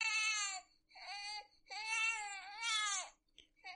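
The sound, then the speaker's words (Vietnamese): An infant cries at night in a series of high, wailing bursts separated by short breaks, ending on a faint, short sob, with no other voices. “Tiếng trẻ con khóc trong đêm khuya vọng rất rõ.”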